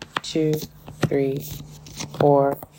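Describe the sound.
Tarot cards slip out of a deck with brief papery flicks and snaps, scattered under someone talking.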